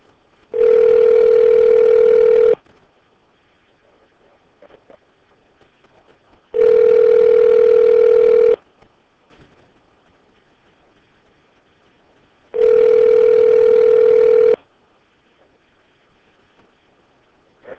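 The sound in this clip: Ringback tones of an outgoing telephone call: three long, steady, buzzy rings, each lasting about two seconds and separated by about four seconds of near silence.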